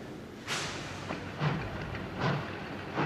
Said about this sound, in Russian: Паровоз загремел всем своим старым, жарким, прокоптелым и промасленным железом и неторопливо пополз по рельсам.